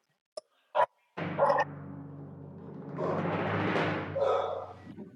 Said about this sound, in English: the barking dog